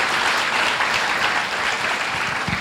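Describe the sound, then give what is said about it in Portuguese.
A church audience gives Jesus a round of applause, with dense, steady clapping that holds at an even level throughout. “Give the Lord a big hand. Vamos dar uma salva de palmas para Jesus.”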